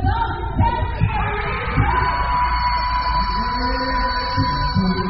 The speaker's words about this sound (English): To keep this tradition alive, high schools and colleges in Trinidad hold harang contests, like this one in a Port of Spain park.